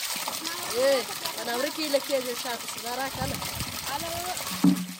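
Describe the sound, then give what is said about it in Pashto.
Children's voices at a borehole pump as they fill water containers, in a drought-hit village. Several lively, unclear voices overlap and chatter at moderate volume. “دا د هغه ماشومانو ژغونه دي چې د اوبو له برمې څخه د اوبو لوښي ډکوي.”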